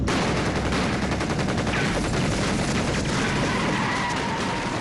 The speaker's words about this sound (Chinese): 机枪、步枪、手枪子弹一起向轿车射来